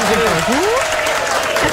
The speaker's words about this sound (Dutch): Applaus.